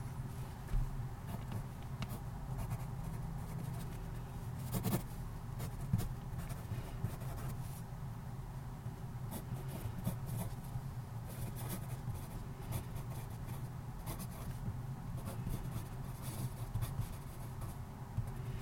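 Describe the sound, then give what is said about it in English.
Writing on paper makes a steady, faint scratchy rustle that runs without a break, with no voices over it. “allow it to sort of spark a short phrase or a sentence. Grow that sentence around it. And write that down.”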